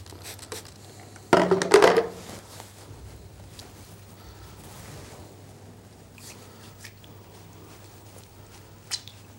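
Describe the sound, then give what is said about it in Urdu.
Water pouring and splashing over hands during ritual ablution (wudu). A short, loud burst of running water gives way to quiet, faint splashes over a steady low hum. “لیکن اگر اتنی مقدار میں ہو کہ پانی اس طرح سے بہنے لگے ہاتھ پر، اور یہ آپ دیکھ سکتے ہیں کہ پانی بہہ رہا ہے،”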